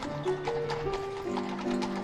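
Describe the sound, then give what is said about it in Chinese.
Clip-clop of a horse's hooves as a horse-drawn carriage travels along an unfamiliar city street, a steady rhythm of hoof strikes over sustained musical tones. “而现在他们竟然坐在马车里开过陌生的大街。”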